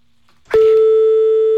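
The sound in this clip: A telephone ringing tone sounds on an unanswered call to a hotel: a brief click, then one steady mid-pitched tone that starts abruptly and holds unchanged and loud to the end, with no voices.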